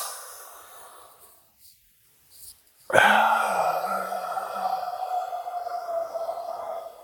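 Deep breathing during a guided mindfulness exercise: a soft breath fades away, then after a pause a loud, forceful exhale begins abruptly and carries on as a long, steady breathy rush.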